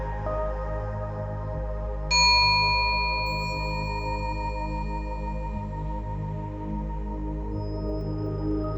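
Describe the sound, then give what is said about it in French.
A singing bowl filled with water is struck once and rings out in a clear, bright, layered metallic tone that sustains and slowly fades over a constant low hum. “appelez l'ange de l'eau en faisant sonner le bol rempli d'eau.”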